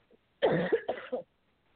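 A short run of coughs triggered by a tickle in the throat: a few rough, closely spaced bursts over about a second, fairly loud, with quiet before and after.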